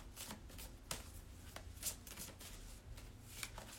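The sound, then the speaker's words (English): A deck of cards being shuffled, a continuous soft papery riffle broken by a few sharper snaps as the cards fall together, fairly quiet and alone. “Ooh, almost dropped all these cards. That wouldn't have been cute at all.”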